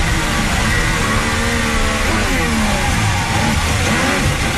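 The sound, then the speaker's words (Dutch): Onboard engine sound of a Formula 1 race car during a race: a loud, continuous high-revving whine that fills the whole stretch, its pitch rising and falling as the revs change. “Onboordgeluid van Gabriel Bortoletto.”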